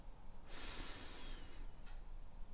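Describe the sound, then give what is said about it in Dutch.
Calm breath drawn in through the nose: a quiet, airy inhale lasting about a second, followed by a fainter brief puff over low background hiss. “Adem rustig in door je neus en rustig uit door je mond. Adem in.”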